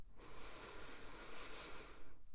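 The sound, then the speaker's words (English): A slow breath drawn in during a relaxation exercise, a steady, airy inhale lasting about two seconds with no voices. “Release that tension in your neck. Breathe in.”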